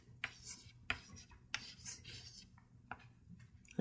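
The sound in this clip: Writing during a chemistry lesson on electron shells: a few short, faint, scratchy strokes spaced irregularly over a quiet background.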